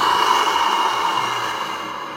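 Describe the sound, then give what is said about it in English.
A long, deep breath out during a guided breathing exercise, a steady breathy rush that fades slightly toward the end, with no talk over it. “Give me a couple more breaths. In. Out.”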